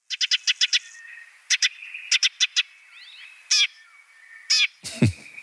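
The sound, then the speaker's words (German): Eurasian tree sparrow calls: many short, bright chirps delivered in quick clusters separated by brief pauses, with a few longer buzzy notes near the end, heard alone with no talking. “damit hören wir auch mal in den Feldsperling, in seinen kleinen Bruder rein.”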